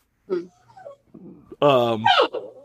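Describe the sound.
A puppy whining in a few drawn-out, high whimpers, the loudest a wavering moan near the end, with softer yips and murmurs between.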